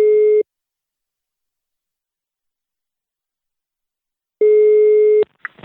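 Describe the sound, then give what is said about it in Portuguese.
Telephone call tone while dialing: two short, steady mid-pitched beeps separated by a long silence of about four seconds, the second cut off by a click and a few faint rustles. “Vou ligar. Liga agora, lá. Vou ligar lá pra Charlene.”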